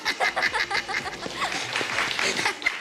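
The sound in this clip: An applause sound effect of scattered, crackling hand claps, dense at first and then thinning into a rougher, steadier patter that runs for about three seconds at moderate loudness.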